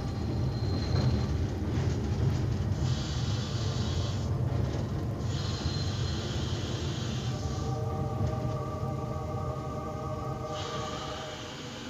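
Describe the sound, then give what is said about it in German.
A train pulling into a terminus station: a loud, steady rolling rumble runs throughout, with shrill, squealing tones that break in and out over it and easing slightly toward the end. “Warschauer Bahnhof, Endstation, alles aussteigen.”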